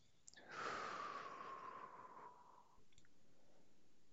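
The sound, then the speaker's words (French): A long, slow exhale during a guided breathing exercise: one faint breath lasting about two seconds, carrying a soft whistling tone that slides gently downward before fading to quiet. “On inspire, on bloque. Et on expire.”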